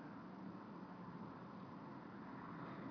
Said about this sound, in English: There's the sound of cars, trucks, traffic from the Bowery below,